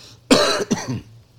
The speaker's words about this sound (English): apologize for my cough